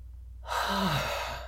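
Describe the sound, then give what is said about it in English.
A person draws one long, deep breath inward, a breathy rush that begins abruptly after a short quiet and holds steady to the end. “leans forward and inhales once again.”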